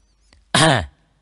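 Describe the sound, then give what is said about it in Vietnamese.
A single dry cough or throat clearing, one short harsh burst preceded by a faint click, then quiet. “Cao Lượng ho khan một tiếng”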